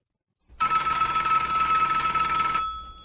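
A telephone ringing: one loud, bright, continuous electronic trill that starts abruptly and ends with a short fading tail, with no voices.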